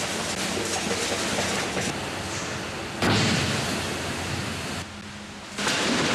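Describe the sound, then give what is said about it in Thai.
Concrete is pumped at high pressure through a pipe up to a crane on the platform of a skyscraper more than 600 metres tall. The result is a continuous booming roar that drops and jumps abruptly in level a few times, with no voices. “เสียงสะท้อนที่ดังกระหึ่มนี้คือเสียงที่ปูนซีเมนต์เหล่านี้ถูกปั๊มแรงดันสูง”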